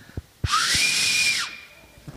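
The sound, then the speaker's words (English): An attempted loud whistle: one breathy, hissing blast carrying a thin, steady tone that drops away at the end. It lasts about a second, and no one speaks. “It's a poor example, but I can't whistle.”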